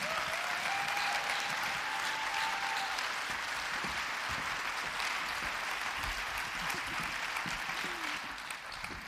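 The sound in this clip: Audience applause welcomes a speaker to the front of a church audience, a steady, full burst of clapping that carries on evenly for the whole stretch with no talk over it.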